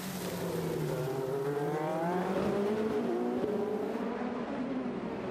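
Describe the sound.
Race car engines during WeatherTech SportsCar Championship 2023 qualifying at Long Beach, where GTP Porsches run. A loud, sustained engine roar whose pitch sweeps downward, then rises and falls again.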